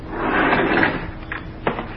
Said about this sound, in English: Here's the elevator now.